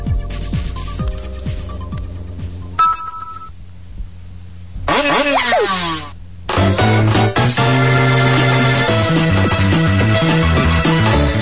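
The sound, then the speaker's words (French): Sped-up Mario Kart race music from the video game plays loud and fast, with bright electronic tones, quick beeping notes and a swooping effect midway. Dense, rapid melodic passages resume after a short gap. “Donc, on va regarder juste un extrait de vidéo pour voir ce que la musique donne une fois accélérée. Avec, je sais pas comment il a fait ça, mais en tout cas, ça marche vraiment bien. Donc, Mario Kart.”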